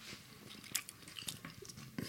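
Faint biting and chewing on cod with crispy skin: a few sharp, crackly crunches stand out over softer, irregular mastication sounds.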